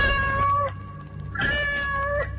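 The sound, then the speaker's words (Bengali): A black cat meows twice, each call a drawn-out, tonal wail with clear steady harmonics, the second coming after a short pause and lasting slightly longer. “হঠাৎ একটা বিড়াল ডাকলো যেন। কোথায় বিড়ালটা? আবার সেই শব্দ।”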